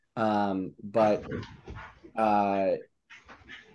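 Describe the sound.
Dogs playing chase yelp and whine in a few short, high, tonal bursts separated by brief gaps, with people talking alongside them.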